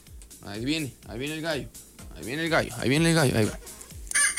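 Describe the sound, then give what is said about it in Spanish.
A human voice imitates a rooster crowing, giving a few drawn-out calls that rise and fall in pitch, moderately loud, separated by short pauses. “Ahí viene el gallo.”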